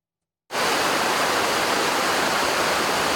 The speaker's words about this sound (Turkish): Deyim yerinde ise Sayıtabat şelalesi coştu, su seviyesi rekor düzeye ulaştı.